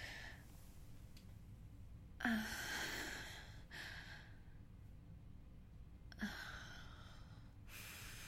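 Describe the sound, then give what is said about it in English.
Deep breaths taken on cue: two sharp, airy inhalations, each trailing into a longer breathy stretch, fairly faint over low background hiss. “All right. Ready? Deep breath.”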